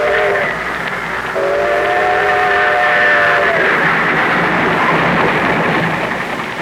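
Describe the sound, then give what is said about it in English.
Great trains rush along shining rails toward a big-city station, a loud, steady rolling rumble. A train whistle sounds with a bright, layered tone partway through, then the clatter carries on alone. “Drawn by the magnetic force of the fantastic metropolis, day and night, great trains rush toward the Hudson River”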